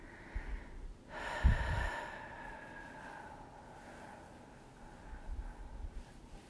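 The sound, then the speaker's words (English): A long exhale of breath during a guided relaxation exercise, a single drawn-out, breathy rush that slowly fades, alone without talk. “So breathe in with me. And now a long exhale, exhaling all that anxiety and things that we can't control.”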